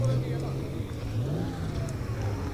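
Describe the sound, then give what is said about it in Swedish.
Car engine revving as the car accelerates, a steady low drone whose tone climbs and wavers around the middle, heard under people talking. “Kan det varit någonting med bilen kanske? Ja. Ja, han gasade på sig.”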